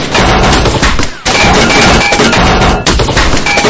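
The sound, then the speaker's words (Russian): Heavy gunfire from a group of armed men opening fire, a loud, dense and nearly continuous barrage of shots with two brief lulls. “По нам открыли огонь.”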